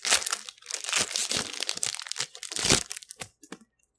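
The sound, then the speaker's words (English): Crinkly tearing and crumpling of a baseball card pack wrapper being ripped open, a few bursts of dry crackle over about three seconds that taper off. “We can probably hear the tearing. Yeah, if that's not a real baseball card pack, then that's really good Foley.”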